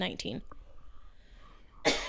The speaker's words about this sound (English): I don't know why choking. I'm coughing so much all of a sudden.